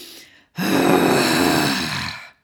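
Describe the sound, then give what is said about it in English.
A person draws in a short, faint breath, pauses briefly, then lets out a long, loud, rough and noisy exhale that slowly fades. “taking a deep breath in, and this is where I'm going to make a noise. Take a deep breath in and then and let it out.”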